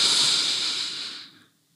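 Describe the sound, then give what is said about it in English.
A single long breath blown out through the mouth, a soft airy hiss that fades away over about a second and a half. “Breathe a breath in. Go ahead and blow that breath out.”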